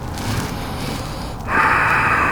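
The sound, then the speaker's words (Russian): Ujjayi breathing during a yoga session, a steady hissing breath drawn through a narrowed throat, with a soft airy rush that swells into a louder, sustained hiss. “Смотрим в пупок, дышим уджайи.”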